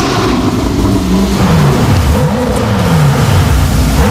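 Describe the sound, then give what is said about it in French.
Alfa Romeo car engine revving: a loud, continuous mid-pitched drone whose pitch swings up and down several times as the throttle is worked. No voices are heard. “Bah c'était une Alfa Romeo classée, c'est pas difficile.”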